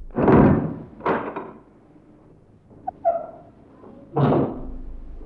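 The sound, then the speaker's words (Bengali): Knocking on a door comes as a few heavy, dull thumps spaced irregularly, with faint quieter taps in the middle. “কে কে দরজা ঠকঠক করছে?”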